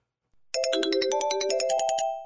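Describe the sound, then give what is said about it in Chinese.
A phone ringtone plays as a bright electronic melody of many quick, evenly pulsed notes. It sounds alone and fairly loud, with no talk. “不开玩笑了，我接个电话。”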